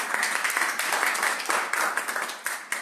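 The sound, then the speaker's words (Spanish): Applause at a press conference: dense, steady clapping from a crowd that crackles without pause for the whole clip, with no clear voices above it. “Así que merecen un aplauso por eso.”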